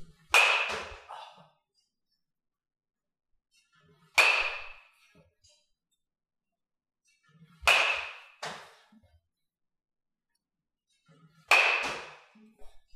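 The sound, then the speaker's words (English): Hard cracks of a Dovetail Polar Pete Pro Select wood baseball bat striking a ball: four loud, sharp hits spaced several seconds apart, each with a short ringing tail, and a fainter knock just after the third. “We threw a wood bat in here. This is actually the Dovetail Polar Pete Pro Select. So that was wood bat action there.”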